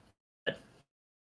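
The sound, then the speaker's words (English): A single small burp from a man, one short, soft sound heard alone between stretches of silence. “No, I burped a little bit. I apologize. Excuse me. I'll burp. I didn't know if that got picked up or not.”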